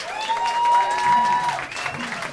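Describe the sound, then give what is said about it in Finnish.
Audience applause for the Summer Jazz Festival at a jazz club event: a steady wash of clapping that holds for about two seconds, with vocal sounds mixed in over it. “Mut hei, isommat aplodit tarvitaan kyllä kulttuuritekoja jatkuvasti tekevälle Summer Jazz Festivalille ja Jatsbaarin porukalle. Hei, olisiko pienet Summer Jazzille?”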